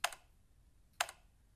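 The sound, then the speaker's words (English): Two crisp, faint key clicks from the keyboard of a vintage 1986 Macintosh Plus computer, spaced about a second apart, each a sharp snap with a brief rattling tail over quiet background. “This is the sound of a key on a vintage Macintosh computer, the Mac Plus, released in 1986.”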